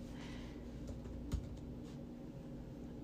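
Faint keystrokes on a computer keyboard as someone types a search query: soft, sparse taps with one sharper click, heard alone.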